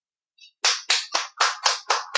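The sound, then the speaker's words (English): Hand claps from a conference call audience: a run of about seven sharp, evenly spaced claps, crisp and fairly loud, with no voices. “Could everyone please join me in unmuting your phones and giving Dr. Adams a round of applause?”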